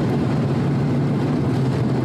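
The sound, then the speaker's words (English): Steady car engine and road rumble while driving, a dense, even, low drone that holds without change for the whole stretch, with no talk over it. “So, and I'm driving, as if anyone didn't know that.”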